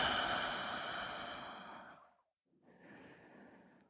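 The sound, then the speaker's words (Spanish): Slow, relaxed exhale through a loose mouth in a guided breathing exercise: one long, soft, airy breath that fades out, then after a short silence a quieter second breath. “esta vez exhala por tu boca suelta.”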